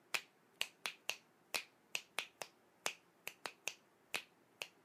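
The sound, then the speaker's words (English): Crisp finger snaps tap out a two-against-three polyrhythm, many sharp clicks falling in an uneven interlocking pattern, alone and fairly quiet. “A polyrhythm would back us up to 2 and 3. It would sound like this.”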